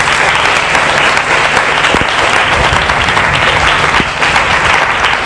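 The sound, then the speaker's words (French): A church audience claps loudly during a French-language sermon, making a dense, unbroken roar of applause that stays at an even level from start to finish. “Acclame Dieu pour Jésus-Christ.”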